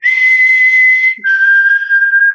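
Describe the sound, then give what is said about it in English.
People on a dock whistle up at the northern lights. One loud, sustained whistled note is held for about a second, then after a brief break a slightly lower note is held to the end, with a fainter higher tone alongside. “they taught me that night that if I whistled at the northern lights, they would dance. And so there was 15 people on a dock going,”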